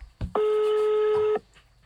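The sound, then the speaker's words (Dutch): A telephone tone as a call is placed: a soft click, then a single steady tone with a buzzy edge lasting about a second before stopping abruptly. “Nou goed, we gaan hem bellen.”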